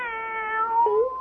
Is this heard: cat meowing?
yes

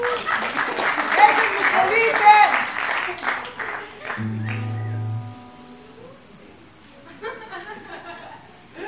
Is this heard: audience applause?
yes

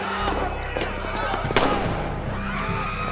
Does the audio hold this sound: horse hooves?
no

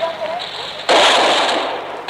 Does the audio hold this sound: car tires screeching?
no

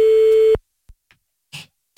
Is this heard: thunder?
no

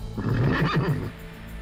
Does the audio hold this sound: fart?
no

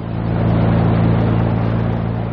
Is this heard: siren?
no

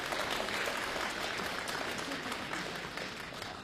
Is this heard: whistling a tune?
no

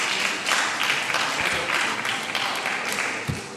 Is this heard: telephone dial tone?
no

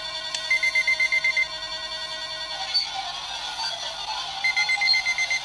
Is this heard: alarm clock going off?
yes

